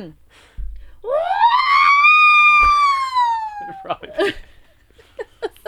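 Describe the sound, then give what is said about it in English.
A person's voice imitates an electrocuted robot droid: a loud, strained, harmonic squeal sweeps up, holds for a few seconds and slowly sags in pitch, then breaks into a few short choppy vocal bursts. “It's the electrocuted R2-D2.”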